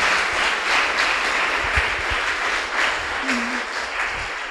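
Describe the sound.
Applause from a church audience welcoming a youth camp presentation, a steady, dense wash of clapping that holds at an even loudness for the whole clip, with faint voices in the background.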